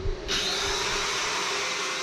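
A power tool cuts through metal window security bars at a five-storey boarding house in Hanoi. It gives a loud, steady grinding whine with a sustained tone, starting abruptly after a brief lead-in and running on without a break.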